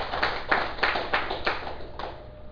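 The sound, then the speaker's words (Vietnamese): Audience at a Buddhist dharma talk clapping in unison, a handful of steady rhythmic beats of group clapping with short gaps between them. “Xin quý vị vỗ tay một tràng pháo tay.”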